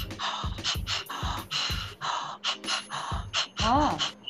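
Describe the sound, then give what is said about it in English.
A voice imitates rhythmic inhaling and exhaling as a percussive effect, like the breathy opening of a Hindi film song. Many short, sharp breath bursts fall in a quick, steady pulse, ending with a brief, wavering voiced tone. “so that is inhaling and exhaling, but it is used like a percussive element.”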